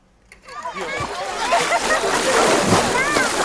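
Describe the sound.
Water splashes as someone jumps in on a hot summer day, a sudden burst that spreads into sustained churning and sloshing, with children's voices mixed in.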